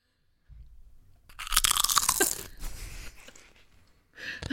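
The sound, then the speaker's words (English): ASMR-style crunching on potato chips: a soft low rumble, then a burst of dense, crackly bites and crunches lasting over a second, fading into quieter chewing before another soft crunch. “And just for you, here's some chip ASMR.”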